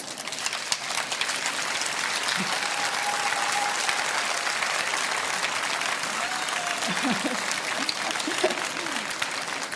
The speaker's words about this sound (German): Sie kriegen ganz viel Applaus.